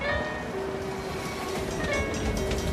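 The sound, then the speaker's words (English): A train travelling beside a river gives a continuous low rumble with faint clatter, while steady tonal whines sit above the even noise throughout. “Grim-faced Jenna sits on a train as it travels beside a river.”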